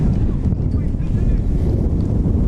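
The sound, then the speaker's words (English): Strong wind batters the microphone at an outdoor baseball game in New Knoxville, making a loud, constant low rumble and buffeting roar with no break. “This wind is a little brutal, and I hope you can hear through the wind.”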